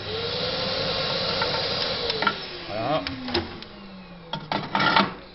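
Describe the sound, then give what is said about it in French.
Metal ash pan being slid back into a Tectro TBH558 pellet stove during cleaning: a few scraping clanks and knocks toward the end over a steady hiss. “Voilà. je remets mon cendrier. Et donc tout nettoyage de mon poil est fait.”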